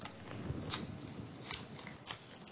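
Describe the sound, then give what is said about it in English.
Paper envelope being opened, soft crinkling and tearing with a few sharper crisp ticks, faint and continuous. “Now, shall we open the envelope? Go on then, can you do that?”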